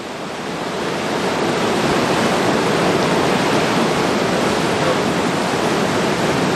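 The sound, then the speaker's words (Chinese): A tidal bore roars at Yanguan as a dense, loud rushing roar. It swells over the first second, then holds strong and constant with no voices. “除了看得清潮水的姿态，我们更听得见它由远及近的像立体声一样的声响。我们不妨放大现场声，一起聆听大自然的力量。”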